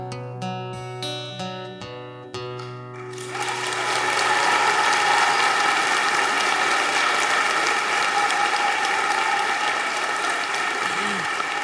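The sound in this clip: Audience applause after a song, following the last sustained musical notes, then breaking into dense, loud clapping that continues steadily for about eight seconds.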